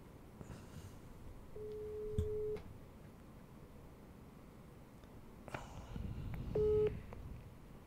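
A telephone ringback tone sounds while a call is being placed: a steady low beep of about a second, then a long pause before another beep starts near the end, over faint background noise.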